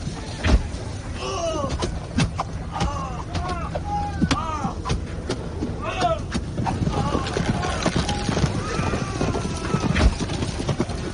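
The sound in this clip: Cavalry horses charging in battle: steady clip-clop of many hooves beating over a constant rumbling noise, with several whinnies breaking through throughout.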